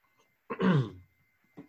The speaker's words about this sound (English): I'm going to take a sip of coffee here to clear my throat.